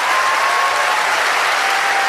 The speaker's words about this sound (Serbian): I veliki aplauz za Predraga Živkovića Tozovca.